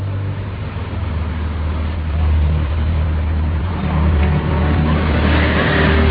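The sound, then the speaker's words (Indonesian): Steady engine drone of a boat carrying travellers back to a beach, a continuous low rumble that holds its level with no break for the whole stretch. “Setelah packing, kami pun kembali berangkat ke pantai itu. Diantarkan kembali dengan perahu.”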